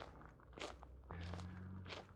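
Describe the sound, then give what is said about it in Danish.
Footsteps on the paths at Sluseholmen in the dark: a few slow, soft crunching steps, faint, with a low steady hum partway through. “Nu er det ved at blive sådan forholdsvis mørkt. Jeg går på stierne ved Sluseholmen”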